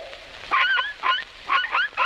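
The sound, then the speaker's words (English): Several short, high-pitched yaps of a little dog come in quick succession. They are bright and fairly loud, with a slight upward lilt, and no talk. “This little dog for Tommy Tinker.”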